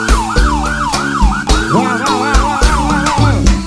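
A loud electronic siren in a live sound-system dance music set warbles in repeated rising and falling sweeps over a pounding bass beat.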